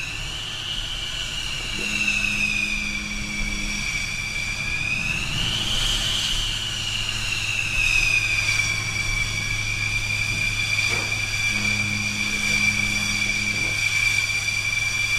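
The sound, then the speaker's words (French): Rafale fighter jet engines run on an aircraft carrier before a catapult launch: a steady, high turbine whine with layered overtones over a low continuous rumble. The whine swells briefly partway through, then settles back to an even drone. “Donc là, ce rafale, il faudra le sortir à 134 nœuds.”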